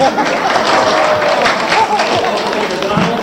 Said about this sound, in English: Let's give a big hand, a big welcome to Don Hornibaby.